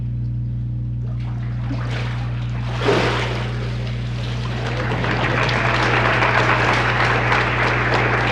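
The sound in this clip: Water splashes as a person is immersed during a church baptism. One loud surge of splashing gives way to continuous sloshing and dripping over a constant low hum.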